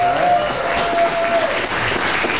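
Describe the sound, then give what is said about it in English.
A live crowd claps in answer to a comedian asking who knows a certain person, giving dense, steady applause that stays loud throughout with a faint murmur of crowd noise. “clap your hands if you know who Michael Malice is”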